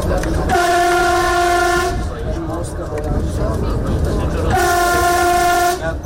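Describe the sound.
A passenger train on a new Armenian rail line sounds two long, loud, steady horn blasts, separated by a stretch of rumbling, rolling train noise.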